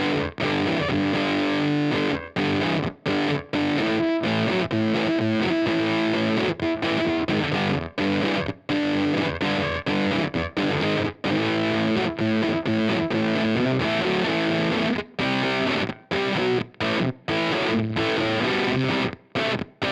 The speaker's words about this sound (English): Let's roll the volume knob back on the 335 on the bridge pickup and see if the fuzz is reacting in a way that I would hope with a real amp.